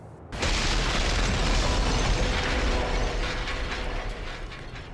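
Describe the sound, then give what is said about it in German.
A trailer rolling and crashing into a drawbridge in a video game: a loud, sustained rumbling roar with mechanical rattling starts abruptly, holds steady, then eases off slightly toward the end. “wir schießen auf diesen Keil, der zerplatzt und der Anhänger rollt auf diese Zugbrücke zu und crasht in sie hinein.”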